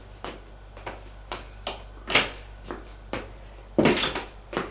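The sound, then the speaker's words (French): A cupboard door is handled in a linen room, giving a series of sharp clicks and light knocks at a steady pace, with a louder rustling knock near the end. “Là, elle ouvre le placard et remet le cahier en place.”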